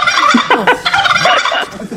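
A turkey gobbling: one loud, rapid, warbling burst of gobbles that runs for about two seconds on its own.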